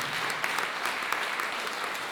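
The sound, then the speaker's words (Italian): Applause from an audience: dense, continuous clapping held at an even level for about two seconds, with no pauses or voices standing out. “Direi che potremmo intanto cominciare con un bel applauso per le operaie e gli operai della GKN che stanno manifestando adesso”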